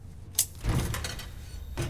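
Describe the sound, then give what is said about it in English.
A metal cadaver drawer slides open: a faint click, then a low scraping roll lasting about half a second, followed by another brief knock near the end, all fairly quiet. “a view over her shoulder shows the cadaver drawer open on its own”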